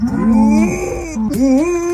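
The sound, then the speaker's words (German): A female dog imitating a cow's moo instead of barking, giving long, drawn-out, tonal moo-like calls in two stretches, the second swooping upward in pitch before levelling off. “Sie liebt Kühe und wenn die muhen, muss Lucy immer mitmachen. Statt bellen klingt das also so.”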